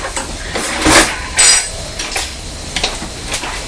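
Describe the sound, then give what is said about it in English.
Metal cutlery clinks as a spoon is fetched to feed a child a fruit dessert pot: a few bright, short rattles and clinks, the loudest two close together. “Well, is that the one you want to eat? I get you a spoon.”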